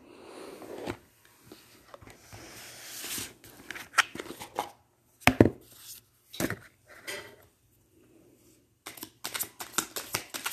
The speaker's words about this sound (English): Okay, I'm gonna pull a card here.